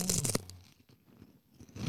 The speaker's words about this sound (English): You want to do an ASMR section to Pringles?